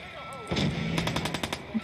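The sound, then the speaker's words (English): Shotgun fire in a post-apocalyptic video game: a sharp blast opens a quick burst of several booming, crackling reports in close succession, loud and harsh, ending in a fading rumble. “Oh, shotgun. Yeah, that is pretty brutal.”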